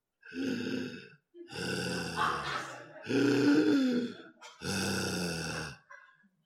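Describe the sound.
Heavy breathing from a pet dog waiting patiently to be fed bread: four long, rough breaths with a slight whine in their tone, separated by short pauses and moderately loud.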